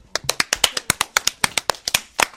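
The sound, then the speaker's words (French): Clapping for the winners of a drawing contest vote: a brisk run of sharp, separate claps from a few people, loud and crisp with short gaps between them. “Veuillez les applaudir.”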